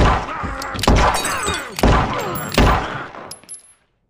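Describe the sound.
Gunfire in an adult animated cartoon: a few sharp, loud shots hit at spaced intervals, each followed by a brief rumbling decay, before the sound thins out and stops.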